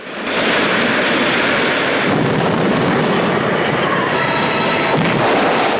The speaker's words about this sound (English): They turn and watch as the beach house explodes in clouds of luminous smoke and flames, a white arc pulsating around it.